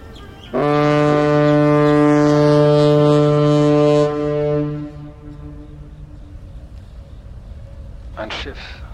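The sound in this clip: A ship's horn blasts once, long and very loud, a deep droning tone with strong harmonics lasting about four seconds before dying away as the ship moves from left to right. A low background rumble follows and a brief noise comes near the end.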